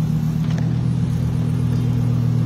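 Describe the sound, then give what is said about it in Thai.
A purple Lamborghini's engine gives a steady, deep rumble, loud and unbroken throughout, with no talk. “อู้เนี่ยรถแลมโบสีม่วงดูคู่ขวยมาก”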